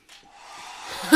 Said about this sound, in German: Mach diesen Föhn aus! Das Ding ist hinüber!